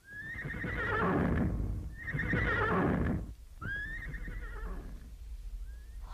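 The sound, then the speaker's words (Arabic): Horse neighing as it is ridden off at a gallop: three loud, shrill whinnies that drop in pitch, then a fainter fourth, over a steady rumble of hoofbeats. “وارخت كل منهما العنان فانطلق بها الحصان وكانه يسابق الرياح حتى وصلت الى بيت ام صباح.”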